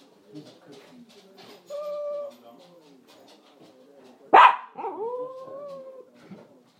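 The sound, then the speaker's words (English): A dog gives one loud, sharp bark partway through, followed by a brief whining tone. Quieter, faint background sounds come before and after it. “I think you can hear that barking then.”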